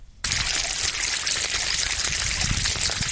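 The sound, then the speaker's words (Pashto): Water flows steadily from a small pipe, irrigating millet and okra fields. After a brief quiet moment it breaks into a continuous, even rush and splash that holds at the same loud level. “شپېته کلن اجم خان له کوره د اوبو وړوکی پیپ راویسته او خوا کې د دنیا باجرې او د بینډو درې کیارې اوبه کولې.”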